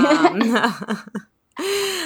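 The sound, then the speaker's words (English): A person clears their throat in a run of raspy, voiced bursts, then falls briefly silent before a longer steady vocal tone. “Wow, I really got something in my throat there.”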